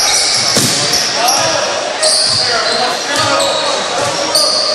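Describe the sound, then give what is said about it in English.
A basketball is dribbled during a game, giving a few dull, thudding bounces at an uneven rhythm under continuous fast commentary. “dribbling the ball way out of the angle. Now he starts dribbling in”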